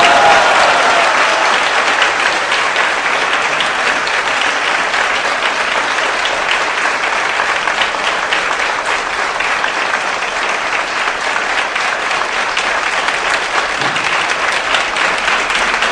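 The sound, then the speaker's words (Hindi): Loud, sustained applause from an audience welcoming a Maharaj at a Hare Krishna devotional gathering. The dense clapping continues steadily throughout with no talking heard. “सब लोग महाराज का सुंदर ढंग से स्वागत धन्यवाद करेंगे जोरदार करता ध्वनि से।”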